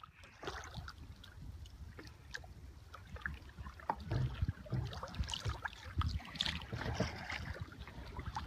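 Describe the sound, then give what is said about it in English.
A double kayak paddles through a bay in Alaska's Glacier Country near Juneau. Soft, rhythmic paddle splashes and water trickles repeat quietly throughout, with light wind noise underneath. “It's the sound of a double-person kayak paddling through one of the many bays in the area.”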